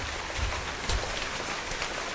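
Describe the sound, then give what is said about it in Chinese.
Heavy rain and hail pound an oil drilling site with a derrick and drill pipe, making a dense, steady hiss with a few heavier thumps scattered through it. “大雨侵吞的钢铁1205钻井队的施工现场，冰雹威胁着井架甩钻杆施工作业的队员们。”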